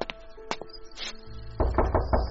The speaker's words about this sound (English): On the 13th of September, 1947, there's a knock on the door.